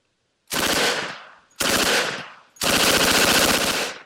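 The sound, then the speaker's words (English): A Thompson submachine gun fires three loud bursts of rapid rattling automatic shots with short gaps between them. The final burst is the longest, and no one talks. “Do the Thompson submachine gun if you've got it.”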